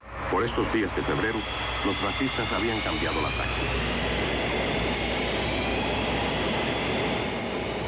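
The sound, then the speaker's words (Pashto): Jet aircraft engine running as Cuban soldiers talk near a Cuban military plane in southern Africa; voices at the start give way to a loud, steady roar with a high whining tone on top. “کوبایي عسکر په داسې وخت کې خبرې کوي چې د جیټ الوتکې انجن یې چالان دی.”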